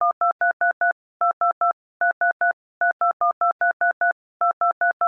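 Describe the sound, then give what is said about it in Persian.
Telephone keypad tones as a number is dialed to place a call: many short, clear two-tone beeps in several quick groups separated by brief pauses, with the upper tone changing between keys and no talk. “خب حالا شماره رو بگیم که اعلام نیاز کنم. خوشم کن زنگ بزنم به بهشتی بود.”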